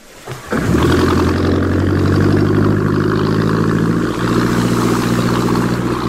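A motorboat engine runs with a steady, loud droning hum. A low rumble builds in the first half-second, then the engine holds an even, continuous tone with no clear revving.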